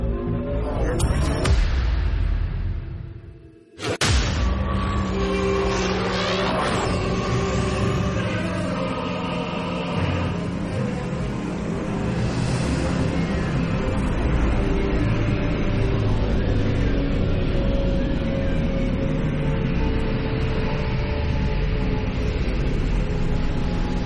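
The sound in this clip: A spaceship jump sound effect in a science-fiction audio drama: a loud, dense rumbling roar with sweeping tones early on, a brief sharp dip, then a long, steady droning rush.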